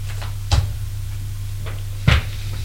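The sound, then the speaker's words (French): A key turns in the lock of a door behind which someone is shut in, giving two short, solid clunks about a second and a half apart over a steady low hum. “Au bout d'un moment, le bruit de la serrure”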